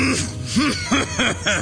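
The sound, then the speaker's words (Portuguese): Someone who is ill with a worsening cough clears their throat in several short voiced bursts, each with an arching rise-and-fall in pitch, heard alone. “Pigarreia.”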